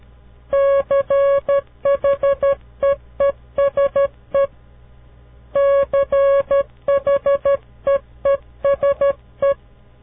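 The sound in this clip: Morse code tones spelling the word cheese: a steady mid-pitched beep keyed in quick short and long pulses, grouped into letters with brief gaps and a longer pause midway, alone over a faint hum.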